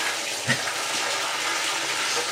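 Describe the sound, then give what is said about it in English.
Water gushes steadily from a tap into a bathtub, running cold in an old house where the hot water is slow to arrive. The flow is a continuous, even hiss with a brief thump near the start. “I think I'm going to give myself a little more hot water. I'm now laying off to the side. Oh, this was a disaster. This water is coming in cold.”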